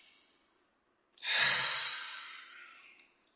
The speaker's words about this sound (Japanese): じゃあちょっと体を動かして最後の一問やりますよ。深呼吸して。